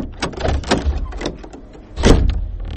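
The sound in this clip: Door opening in a house: a few sharp clunks and rattles, with a louder clatter toward the end.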